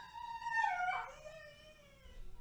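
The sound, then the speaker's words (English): A dog whines at another dog across the street, a single drawn-out, high tonal whine that dips lower in pitch midway, then holds and slowly fades. “And I don't know if anybody can hear this, Kaido sees probably another dog across the street and is whining about it.”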